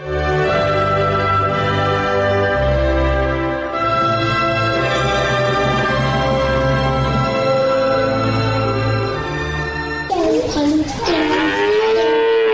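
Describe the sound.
A cow moos in a cowshed: loud, long, sustained lowing calls follow one another almost without a break, with a wavering, shifting call near the end.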